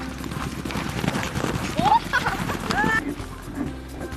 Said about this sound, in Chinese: 马跑的时候像飞的感觉一样。梦想就是当一个完美的骑士。 马跑起来之后爽。